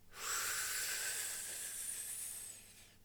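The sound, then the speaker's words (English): One long, deep breath taken during a meditation: a soft, airy rush of breathing that swells quickly, holds steady, then tapers off. “Breath, meditation. Breathe. Let's take a deep breath together.”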